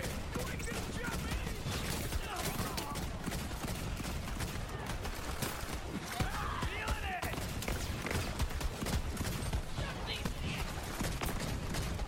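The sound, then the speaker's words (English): Gunfire in the video game Borderlands 3, rapid volleys of many shots running almost without break, a busy, crackling stream of bursts at a steady level. “God, this fucking gun has to reload so often.”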